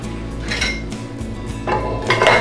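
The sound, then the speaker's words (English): Metal cookware clattering as a pot of vanilla-flavoured milk is set on a stove. A few bright metallic clanks and scrapes sound over a low steady hum, with no talk. “We're now going to take the milk that we've added the vanilla to, and we're going to put that on the stove.”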